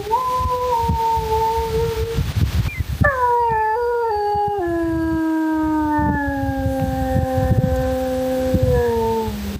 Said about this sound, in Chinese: 这就是狼的叫声哈。 对。 这也是你们给录下来的。